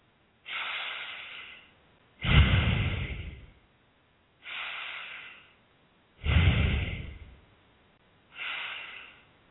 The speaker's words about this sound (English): The chest also rises and falls during long deep breathing. Long deep breathing sounds like this.